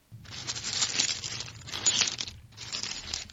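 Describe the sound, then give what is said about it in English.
Paper is unwrapped during a bingo game, heard as three bright, crinkly bursts of rustling and tearing separated by short pauses, with no voices. “Paper! Is she unwrapping it?”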